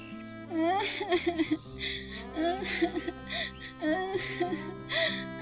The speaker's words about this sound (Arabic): ايه خلص هلا وقت البكاء تبعك، وجعتي لنا راسنا بدنا ننام.